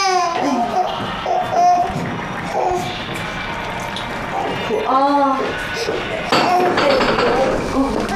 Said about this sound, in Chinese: 他怎么老哭啊？ 你别说他，你小时候也是这么哭大的。